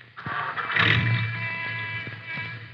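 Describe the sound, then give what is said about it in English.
A car engine starts with a sudden catch and quickly settles into a quiet, steady idling hum with a faint tonal drone. “Now, you better start your motor.”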